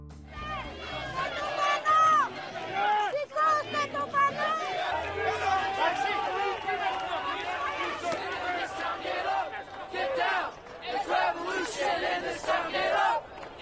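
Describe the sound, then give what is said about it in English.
Crowds at street demonstrations in Athens, Greece and New York City: a dense, continuous roar of many voices chattering and shouting together, with raised cries rising above the babble throughout. “That's the sound of demonstrations in Athens, Greece, and right here in New York City.”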